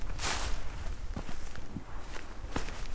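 Footsteps on limestone blocks in an open grassland landscape: a few soft, scattered steps with crunchy, gritty contact over a steady background hiss.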